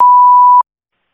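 An answering machine beep before a voicemail plays: a single steady, pure mid-pitched tone lasting just over half a second, then abrupt silence.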